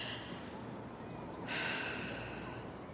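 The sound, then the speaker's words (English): A single faint, deep breath drawn in during relaxation instruction, swelling into a soft, airy rush about halfway through and lingering to the end. “Relax. Yes. Drop your arms. Breathe.”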